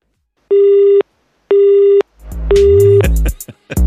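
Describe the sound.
Pulsed tone of an unanswered telephone call, three even half-second beeps with equal gaps, the last one overlapped by louder, busier sound that continues to the end.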